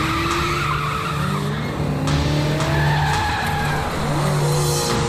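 Tires squeal repeatedly as a black Toyota with no plates speeds away during a police chase, loud skids sliding over a constant engine drone.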